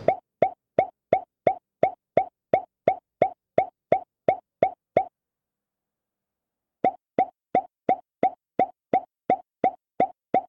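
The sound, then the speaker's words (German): An app plays popping sound effects: soft, identical plops repeat at an even, quick rhythm for several seconds, stop for nearly two seconds, then resume at the same steady pace, with nothing else heard. “zumindest vorab mal kurz die Geräusche, die die App macht.”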